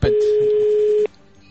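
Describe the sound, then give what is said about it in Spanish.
A telephone tone plays while a call to a restaurant in Brussels is placed. It is a single loud, steady, pure beep lasting about a second, then it cuts off abruptly into a quiet line. “Entonces estamos llamando a Bruselas a un restaurante.”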